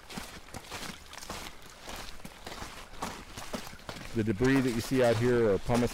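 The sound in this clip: Footsteps crunch over a rubble field of rocks, ash and sand left by a river debris flow, a steady run of scraping, gritty steps under a constant background, with a person talking in the last seconds.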